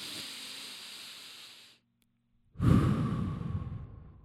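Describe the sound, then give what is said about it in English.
A slow deep breath: a long airy inhale, a second of silence, then a fuller, louder breathy exhale that fades away, heard alone without talk. “Let's just like take a deep breath on that one.”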